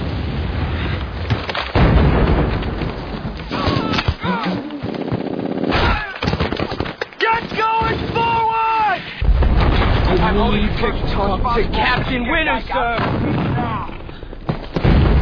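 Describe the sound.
Suppressing gunfire during a platoon's attack on a village, with dense bursts and heavy booms running almost continuously and shouting voices cutting through the barrage.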